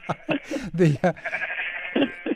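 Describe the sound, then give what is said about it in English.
A sheep gives a wavering, drawn-out bleat. Short bursts of other voice-like sounds come before it. “Is that a sound effects record, or is that a real sheep you got? Sheep.”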